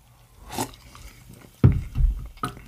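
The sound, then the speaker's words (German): Someone takes a first sip of a Chiemseer base drink: a light wet slurp, then a couple of low, thick gulping swallows, heard without speech. “Aber jetzt hier starten wir erst einmal mit dem Basisgetränk. Und an der Stelle, ich trinke schon mal das erste Schlückchen.”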